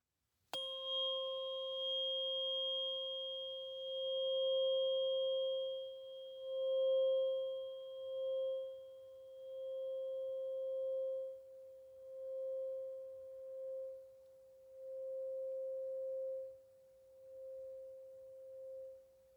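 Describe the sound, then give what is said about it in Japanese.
A struck tuning fork rings out with a sharp attack. It settles into a pure, steady tone that holds for nearly twenty seconds with a gentle, slow waver in loudness. “音叉の音がどこまでも聞こえる。”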